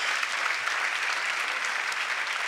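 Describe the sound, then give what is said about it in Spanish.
A church audience applauds the Lord during a service: a steady wash of many hands clapping at an even, moderate level throughout. “dale el aplauso al Señor”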